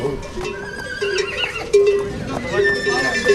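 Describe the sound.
A horse neighs in shrill whinnies among clopping hooves, with foals on a mountain pasture nearby. People talk over the animal sounds.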